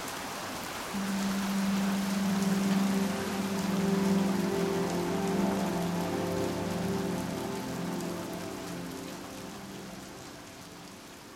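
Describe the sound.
Steady rain patters down in a dense, even hiss with a low watery hum beneath, the level easing gently toward the end without fully stopping.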